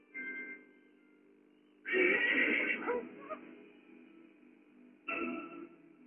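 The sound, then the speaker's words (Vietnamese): An excited horse neighs in a few whinnies: a faint first call, then a long, loud, shaky neigh, and after a pause a shorter burst. No other voices. “Con ngựa này sao thấy con nó lại kích động thế như vậy?”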